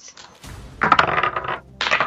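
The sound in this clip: Dice rolled onto a table during a tabletop role-playing game, a short clattering rattle of clicks followed after a pause by a second burst.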